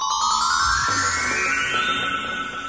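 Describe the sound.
Telephone ringing with an incoming call: a loud, bright electronic ring tone that sounds continuously through the whole clip with layered tonal pulses.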